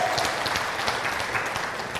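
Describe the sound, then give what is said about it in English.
Applause from a church audience giving a clap offering to the Lord, a dense, steady wash of many hands clapping together without pause for the full length, with no voices standing out. “Let's give the Lord a clap offering.”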